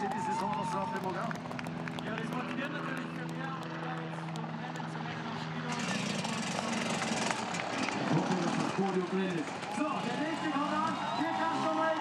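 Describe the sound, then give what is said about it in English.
Engine of a motorcycle ridden down a nearly vertical snowy slope, a low, steady droning hum under a talking voice, turning rougher and noisier about halfway through. “Clearly a motorcycle was never meant to be ridden anywhere like that. Going for the snow, perhaps because it's a softer landing. That's a nearly vertical descent.”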